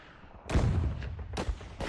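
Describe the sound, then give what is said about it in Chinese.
Rifle gunfire in battle: a few sharp, booming shots with heavy low thuds, spaced unevenly and heard without voices. “王喜奎是正为赵刚负责的神枪队队长，在弹药极度缺乏的时刻，他们几乎做到了一枪一个日本鬼子。 哎，又一个，好枪法”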